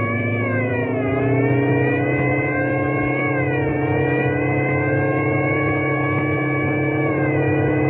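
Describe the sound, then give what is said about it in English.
A car engine revs hard as its supercharger and emergency speed gear kick in, giving a continuous high whine that dips briefly in pitch a couple of times over a steady low rumble, loud and unbroken throughout. “I'm going to kick in the supercharger and the emergency speed gear.”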